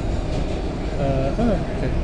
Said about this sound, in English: now on board the Port Authority Trans-Hudson Line, otherwise known as the PATH train.